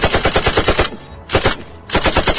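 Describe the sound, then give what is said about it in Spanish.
A machine gun fires from an advancing vehicle in rapid, loud bursts: a long string of shots, a short burst, then another run after brief pauses, with no voices. “Comenzó a disparar en tanto el vehículo avanzaba hacia Cryer.”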